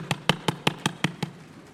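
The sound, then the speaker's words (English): A hand thumps on a Bible seven times in an even, steady rhythm, each blow a dull, fairly low knock, with the sound fading after the last. “Sometimes people will call someone a Bible thumper. So I want you to try it. Go ahead.”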